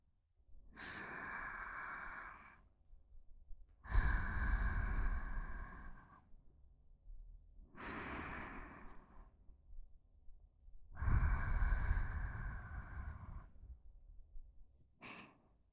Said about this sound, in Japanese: 鼻から大きく吸って、口からゆっくりと吐き出すんだ。